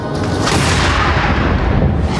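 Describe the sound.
A gunshot in an American film comes as a heavy, loud booming blast that stays dense and rumbling across the whole moment, with no talk over it.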